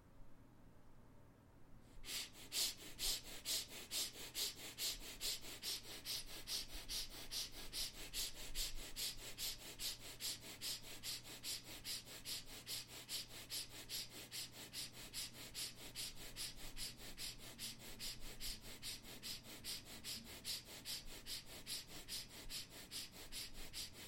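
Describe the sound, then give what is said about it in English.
Quick, short breaths from the belly in a breathing exercise pulse in a steady, fast rhythm of many sharp, airy exhalations, beginning after a brief quiet moment and continuing evenly throughout. “you continue the journey of quick short breath from the belly. You expand the belly when you inhale, you contract the belly when you exhale.”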